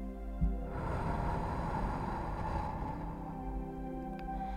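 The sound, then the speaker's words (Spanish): A long, slow breath in through the nose during a guided relaxation exercise: soft, steady airflow over sustained tonal background music, fading toward the end. “Inhala por la nariz. Sostén un instante. Y exhala por la boca.”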